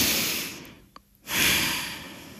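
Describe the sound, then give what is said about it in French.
A deep breath is drawn in with a broad, airy rushing hiss. It comes in two long phases split by a brief near-silent pause, and the second swell is fuller and steadier. “Étape 1. Prendre une large inspiration.”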